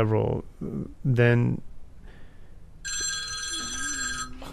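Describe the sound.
Two mobile phones ring at once, giving bright electronic ringtone tones layered over each other. A voice speaks briefly just before the ringing starts, and the ringing then continues steadily to the end.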